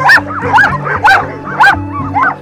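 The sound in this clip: Sled dogs bark and yip in five sharp bursts at an even, fairly quick rhythm, over a low, steady, whining drone. The dogs are rehabilitated animals from a long-distance race team.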